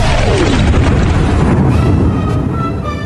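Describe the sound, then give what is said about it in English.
A fireball shot from a figure's hands and flying toward its target makes a loud, roaring whoosh. A tone sweeps downward within the rush, and the roar thins and fades slightly near the end. “A fireball shoots out of Krampus Steve's hands and flies towards Santa Claus.”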